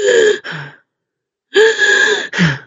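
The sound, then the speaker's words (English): A person imitates a dog's noisy, rasping breathing from laryngeal paralysis. Two loud bursts of harsh, wheezy breaths, each split into two parts, are separated by a brief silence. “this is a classic finding for laryngeal paralysis. Now, I'm going to demonstrate what it sounds like, but if your dog is chasing a ball and all of a sudden they start breathing like this”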